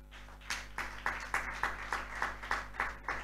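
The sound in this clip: A church audience claps in praise, many hands striking together in a brisk, steady unison rhythm of about four claps per second, with a low hum underneath.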